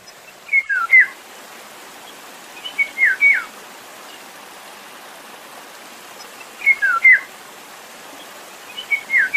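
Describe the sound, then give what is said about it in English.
Whistled song of a Eurasian golden oriole: four short, fluting phrases of a few clear notes each, spaced several seconds apart. The last phrase is cut off at the end, with a faint steady hiss underneath. “I think it's the Eurasian golden oriole. And first, here's the sound of the bird.”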